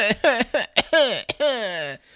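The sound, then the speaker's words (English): A voice imitates coughing with a quick run of short, voiced, whiny bursts, ending in one longer drawn-out cough-like sound. “instead of coughing, like I was coughing like,”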